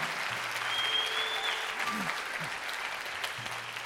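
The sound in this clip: An audience applauds at Milwaukee's Pabst Theater: a dense, steady wash of many hands clapping that holds at an even level for the whole stretch without fading.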